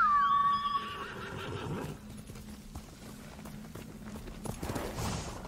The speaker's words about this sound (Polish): Gdzie ty jesteś, mój koniku? Chodźmy.